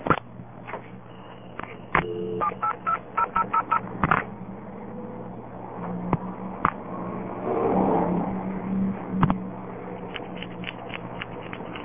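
Touch-tone telephone dialing of phone numbers: a quick run of short, evenly spaced beeps, then scattered clicks and line noise over a steady low hum.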